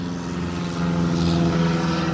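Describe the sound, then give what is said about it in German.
A small airplane flies over with a steady, low propeller drone and a buzzing engine tone. It grows slightly louder partway through and holds alone without voices. “Flugzeug, schön. Ja, ein kleines Flugzeug.”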